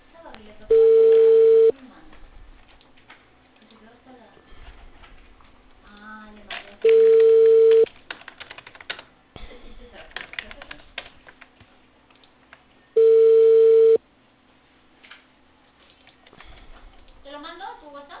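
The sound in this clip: Telephone ringback tone on a call placed from Cali, Peru: three steady mid-pitched tone bursts of about one second each, evenly spaced roughly six seconds apart, with faint voices and background noise between them.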